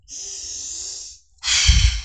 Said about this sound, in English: now close your eyes, take a deep breath.